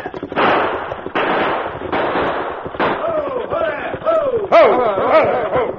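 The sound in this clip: Gunfire in a Western-style shootout during a holdup of a buckboard. A few loud, sharp bursts ring out close together, then men shout over the tail of the shooting.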